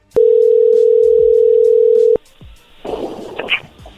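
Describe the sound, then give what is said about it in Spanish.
A steady telephone dial tone holds for about two seconds as a number is redialed after a dropped call. Softer handling noise and scattered clicks follow. “¿Colgó? A ver, márcale de nuevo,”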